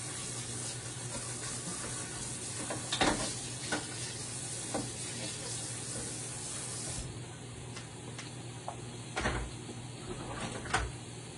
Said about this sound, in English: All right, so we're just cooking some sausage here.